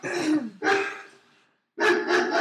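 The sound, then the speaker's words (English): A person imitates a dog barking, producing a few short, rough, throaty bark sounds separated by a brief pause. “Listen, I'm barking at you.”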